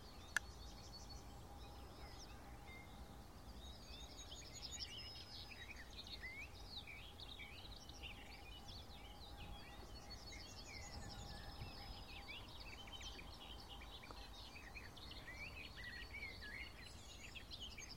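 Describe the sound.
A barred warbler sings in a sunlit, flower-filled meadow, giving faint, rapid chattering and warbling phrases that repeat continuously over a quiet background.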